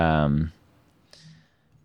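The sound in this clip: A single crisp computer mouse click stands alone after a brief stretch of speech, a sharp faint tick over quiet background.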